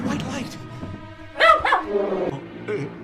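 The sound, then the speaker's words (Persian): A dog barks a few sharp, yelping times in a short burst amid animated talking voices. The barks are louder and brighter than the surrounding speech. “میشه یکی شر این سگو بکنه؟”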